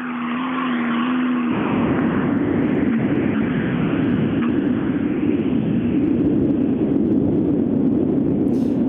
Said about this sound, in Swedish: Vi har den första bilen i klassen i spåret då.